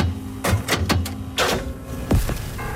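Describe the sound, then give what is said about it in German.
A coin drops into a jukebox and a record is selected, heard as several sharp mechanical clunks and clicks spread over a steady low hum. “Der Radio 7 Jukebox hält Elvis Presley. Ich werfe mal kurz mit in unsere Jukebox rein. Moment, so.”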